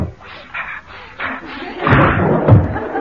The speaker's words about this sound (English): I really must open the window.